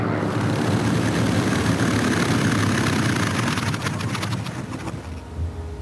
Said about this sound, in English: Two Japanese Zeros land and taxi across the tarmac toward Nick and Joe.